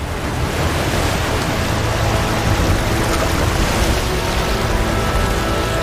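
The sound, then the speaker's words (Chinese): Rough, surging sea waves roar in a loud, unbroken wash of dense noise, steady throughout with no voices. “汹涌的海水成为了他面前的一道阻碍。”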